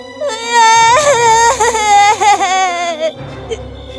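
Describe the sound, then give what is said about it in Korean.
A young girl, the giant's daughter, cries in a high, wailing sob. Several drawn-out, quavering cries run close together, loud and alone, then trail off into softer whimpers. “거인은 화가 나서 우는 딸을 달래느라 정신이 없었어요.”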